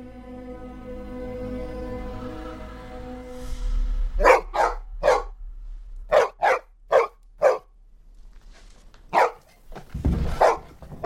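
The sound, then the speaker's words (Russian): A dog barks in many sharp, loud bursts, some in quick pairs, after a quiet sustained tone. “Собака бежит в сторону рощи.”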